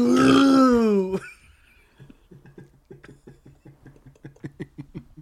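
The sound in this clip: A single loud, deep burp rolls out for about a second, followed by a run of faint, rapid clicking ticks.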